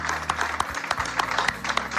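Audience applause: a dense, steady patter of many hands clapping throughout, moderately loud, with no voices standing out.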